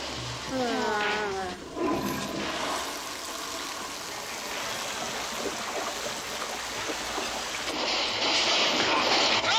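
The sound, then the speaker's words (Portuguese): A toilet flushes in a Portuguese-dubbed film scene, giving a steady, full rushing-water noise that fills the whole clip and swells slightly near the end. A brief voice-like sound is heard near the start. “Isso, segura a descarga.”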